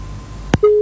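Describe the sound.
A phone line cutting out during a radio call-in: one short, sharp click, then a steady electronic tone that holds to the end.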